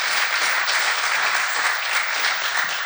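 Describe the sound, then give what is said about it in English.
Dense, steady applause rises from an audience giving a big hand to the leaders of a Fresh Start group, continuous and even throughout. “Give these guys a big hand. They do an awesome work.”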